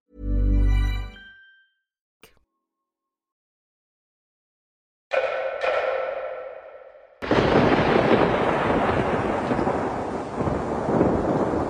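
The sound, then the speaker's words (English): Thunder from a storm rolling into Dubai ahead of extreme flooding: one deep, loud rumbling boom, a short quiet with a single sharp crack, then a broad hiss and a steady, heavy downpour roaring to the end. “This is the sound of the storm rolling into Dubai.”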